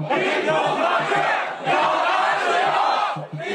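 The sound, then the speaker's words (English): Students protesting at Beijing's Tsinghua University chant for a free media and less censorship, a loud, continuous mass of voices with steady rhythmic syllable pulses, surging in two long waves with a brief dip between. “It's the sound of students at Beijing's Tsinghua University calling for a free media and less censorship.”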